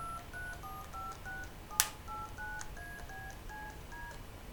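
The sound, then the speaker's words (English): Telephone DTMF touch-tone dialing held to a microphone makes a quick sequence of short, clean dual-tone beeps at varying pitches, interrupted by one sharp click partway through, faint over low background hiss. “And if I start dialing, I can dial a number like that by just putting it next to the microphone.”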